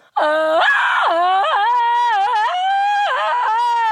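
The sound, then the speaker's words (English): A person lets out a loud, sustained Tarzan-style scream for about four seconds, the voice warbling and breaking repeatedly between higher and lower pitches. “oh, that's sort of more Tarzan-y. Do you ever hurt your voice when you scream?”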